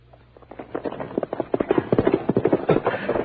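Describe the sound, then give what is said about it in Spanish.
A riderless horse, spooked into running off alone, gallops with rapid clip-clopping hoofbeats. The hoofbeats grow louder and denser over about three seconds. “Con seguridad que espantó el caballo para que se fuera corriendo solo.”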